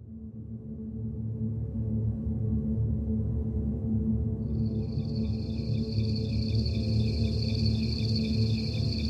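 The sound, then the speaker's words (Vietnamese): Cicadas chirp on a drizzly summer afternoon in Saigon. A high, pulsing drone starts about halfway through and continues to the end over a steady low rumble. “Một buổi chiều Sài Gòn lất phất hạt mưa bay, mấy con ve sầu cũng bắt đầu râm ran tiếng hát báo hiệu mùa hè đã đến”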